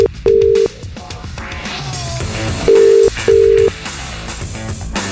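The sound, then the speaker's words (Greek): A telephone call rings out with three short, steady electronic ringback beeps, the last two close together, heard over busy background music. “Συνδεθήκαμε με τον προσωπικό τηλεφωνητή.”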